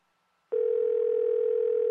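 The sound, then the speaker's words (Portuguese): A steady, single-pitch telephone line tone from a call that rings and goes unanswered. The line is silent for the first half second, then the tone starts abruptly and holds at an even level to the end. “Está a tocar, Sr. Presidente. Está. Vamos lá ver se o Sr. Altino atende.”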